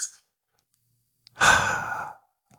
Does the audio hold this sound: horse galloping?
no